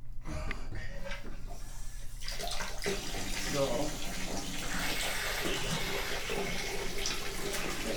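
Water from a tap rushes into a bath as a child's hair is about to be washed. The flow is faint and steady and begins a couple of seconds in, after a brief quieter start.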